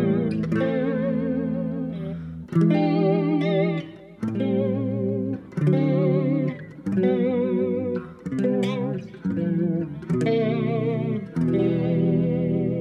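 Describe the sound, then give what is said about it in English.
Electric guitar notes bent by really rapid shaking of the tremolo arm, giving a fast, fluttering warble in pitch. Several sustained phrases are separated by short gaps, with a processed, chorus-like sheen. “I guess you don't hear that often, like tremolo arm. Really rapid shaking.”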